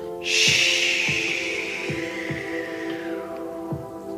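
A long audible inhalation through the nose during a guided breathing exercise: one steady breath of about two and a half seconds that slowly fades, over soft background music with a few low, muffled thumps.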